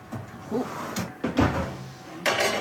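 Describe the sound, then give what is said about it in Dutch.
A pizza taken out of an oven: a few faint clunks, knocks and scrapes of the oven door and tray, spaced irregularly against a quiet background. “Oké, we gaan de pizza eruit halen. Yes, daar komt ie.”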